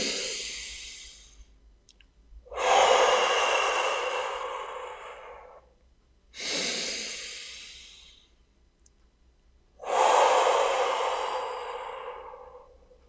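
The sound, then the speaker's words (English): Slow, deep breathing during a guided breathing exercise: air is drawn in through the nose and pushed out through the mouth in a few long, airy rushes, each fading gradually, separated by quiet pauses. “beginning to pick up a nice inhale in through the nose, exhale out through the mouth. Maybe beginning with a few deep breaths.”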